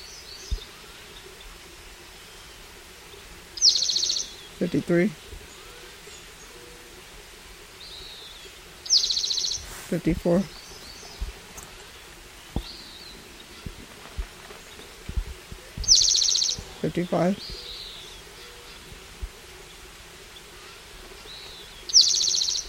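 Four short bird calls arrive at spaced intervals, each a sharp high chirp with lower buzzy notes, over a steady low hum.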